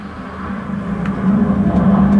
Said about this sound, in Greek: Αυτό είναι το ζωντανό ραδιόφωνο. Περνάει ένα φάντομο από πάνω σου, για ποιο λόγο δεν ξέρουμε.